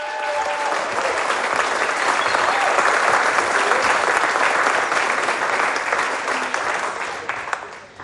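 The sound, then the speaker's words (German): Audience applause greets a guest invited onto a stage at a live event: dense, steady clapping that holds for about eight seconds and eases slightly at the end. “Ach, schon mal einen Riesenapplaus für Anja.”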